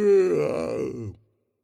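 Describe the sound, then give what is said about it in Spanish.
A single drawn-out human yawn, a voiced, moaning tone that sinks in pitch over about a second before trailing off into silence. “Cuando tú bostezas y nada sale.”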